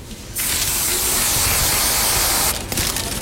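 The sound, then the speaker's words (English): Whipped cream sprays from a can onto mini cake donuts as a loud, steady hiss lasting about two seconds, starting and stopping abruptly. “It's like we'll shoot a little bit of whipped cream in there.”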